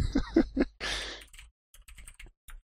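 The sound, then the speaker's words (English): Typing on a computer keyboard: a few light, irregular key clicks after a brief noisy rustle, faint and sparse. “Don't type that it in.”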